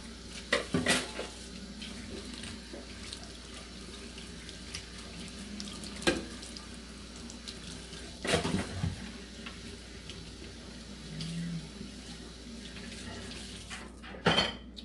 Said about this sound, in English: Since I live alone, it's not too many dishes. It's done pretty quick.